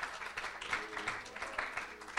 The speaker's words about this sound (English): Let's give the Lord a good hand clap of praise.